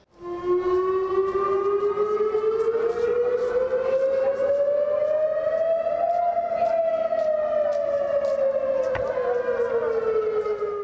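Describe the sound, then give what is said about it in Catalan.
Warning siren for chemical risk sounding during a test in a city: a loud, steady wailing tone that climbs slowly for several seconds, then gradually falls, with bright harmonics and no voices. “s'ha fet una prova de sirenes de risc químic”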